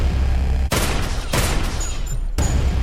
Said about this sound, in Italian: Quando Guido torna sta impugnando la sua Browning e anche Doretta ha la pistola in mano. Fanno fuoco.